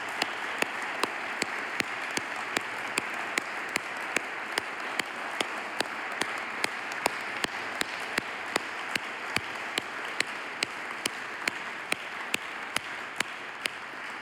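A church audience applauds to welcome people back to Lake Baldwin Church, a steady, fairly soft wash of clapping that holds evenly throughout, with faint regular ticks running through it.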